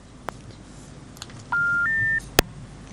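Telephone line tones as a caller's line cuts off: two steady electronic tones, the second a step higher in pitch, followed by a short sharp click, with no voices.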